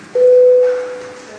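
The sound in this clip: A single electronic bell tone sounds in a parliament chamber before a vote. The steady, loud, mid-pitched beep starts sharply, holds for under a second, then fades away.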